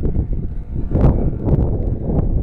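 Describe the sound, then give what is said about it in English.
Wind noise on a handheld recorder outdoors: a loud, low buffeting rumble that fills the whole clip, surging in gusts, with a few brief sharper rustling bursts. “Picking up quite a bit of wind noise, I'm sure.”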